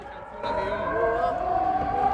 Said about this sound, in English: In northern Israel, 6 miles from the Lebanese border, the siren has become the soundtrack.